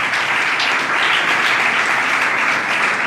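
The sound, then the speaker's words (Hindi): Audience applause at a worship gathering: dense, steady clapping from many hands that stays loud and even throughout, with no talk over it. “खुदावंद के लिए जोरदार तालियां बजाएं।”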